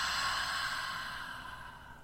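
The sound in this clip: A deep breath slowly exhaled during guided breathing meditation, a steady airy hiss lasting about two seconds that gradually fades, with no talk.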